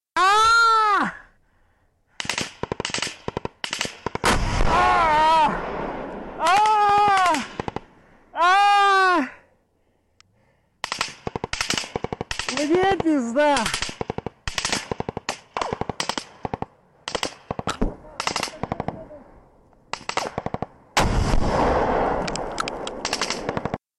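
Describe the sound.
Gunfire fills the scene: repeated sharp bursts of shots, some rapid like automatic fire, spread throughout and loud. A voice cries out in several strained, rising yells between the early volleys.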